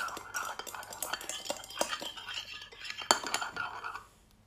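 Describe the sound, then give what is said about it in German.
A spoon stirs a colourful drink of Smarties with blue and red yoghurt in a glass, giving many quick, light clinks and scrapes in an uneven rhythm, with faint whispering underneath before it stops. “Sie rührt gerade ihren Smarty Drink um. Der wird auch irgendwie bunt.”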